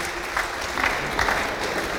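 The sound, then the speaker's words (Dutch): Congregation applauding a song at a church mission service in Holland: steady massed clapping from many hands fills the whole clip at an even level, with a few slightly louder bursts scattered through it. “Okay, clap your hands for your song. Geef een applaus voor dat lied.”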